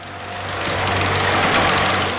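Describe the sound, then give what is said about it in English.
A big boat passes, picked up underwater by a hydrophone as a dense, steady low rumble with a droning hum. The noise swells gradually, then eases slightly toward the end. “That's the sound of a big boat passing.”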